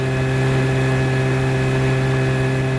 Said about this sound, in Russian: Моторная лодка плывет в сторону города.